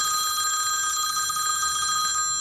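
A telephone rings with a steady, continuous electronic trill that stays bright and even from start to finish, with no voices.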